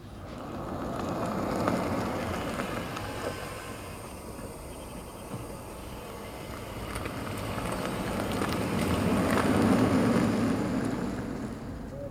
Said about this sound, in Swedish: ett elfordon helt utan ett pålagt ljud. Utan det är bara en inspelning och det är då ett fordon som rör sig mot ett övergångsställe och sedan kör iväg.